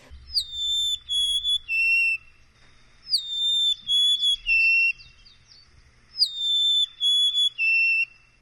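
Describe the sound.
Golden-crowned sparrow song, a fall migrant in the San Francisco Bay Area: three separate phrases, each a few clear, sweet whistled notes stepping down in pitch, with quiet pauses between them.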